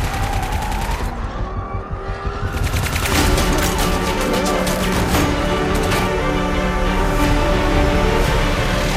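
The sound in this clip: Gunfire in an action film: a loud, dense barrage of rapid shots in continuous bursts, layered over a heavy, roaring din with no speech.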